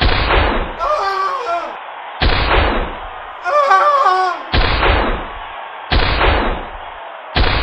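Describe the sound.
A sawed-off 12-gauge shotgun fires five loud, booming blasts spaced about a second and a half apart, with shouting voices in the gaps between shots.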